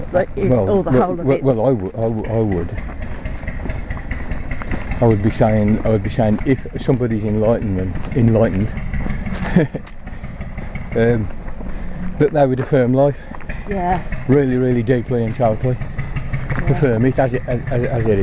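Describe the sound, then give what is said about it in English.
A working barge engine with engine trouble chugs and idles low in the background, largely under an ongoing conversation between two men. “That's the sound of a barge you can hear that there. Yeah. Having a little bit of trouble with his engine, I think.”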